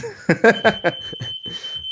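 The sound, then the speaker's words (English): A home smoke alarm going off, a steady high-pitched tone that sounds continuously once it starts, alongside louder, irregular bursts of other sound. “did he just set a fire off? No, my wife just set the fire alarm off. There it is.”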